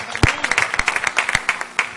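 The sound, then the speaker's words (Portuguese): Church audience claps during a service, with distinct, uneven handclaps from a few people at a time and several sharper, louder claps standing out. “E as palmas são para Jesus.”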